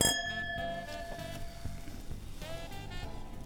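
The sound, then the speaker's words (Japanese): Wine glasses filled with pink Pinot Noir clink in a toast, a bright, thin ringing tone that decays slowly, followed later by a second, fainter shimmer over a low background murmur. “では乾杯。”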